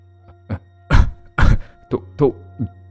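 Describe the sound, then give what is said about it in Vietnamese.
A man coughs violently after drawing hard on a cigarette. About six harsh, throaty coughs come in quick, irregular bursts, loud and raw, with short gasps between them. “rít mạnh một hơi căng lòng phổi, thì đột nhiên ho sặc sụa”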